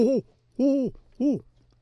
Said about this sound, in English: And the great horned owl has that sort of a different tempo.